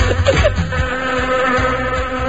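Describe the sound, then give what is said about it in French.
A housefly buzzes steadily, a continuous wavering drone that holds at a fairly even loudness from start to finish. “Il y a une mouche, là.”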